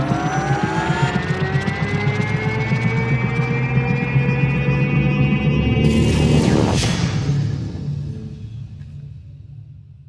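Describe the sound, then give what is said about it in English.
A propeller engine runs after being wound up and given more power, its droning tone climbing steadily in pitch before a loud, harsh surge that then fades away. “Wind up the propeller. And... more power.”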